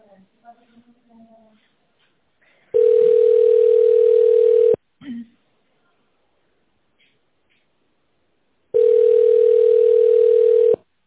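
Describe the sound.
Telephone ringback tone heard while a call is transferred to a specialist: two long, steady mid-pitched beeps, each lasting about two seconds, separated by several seconds of near silence with faint clicks.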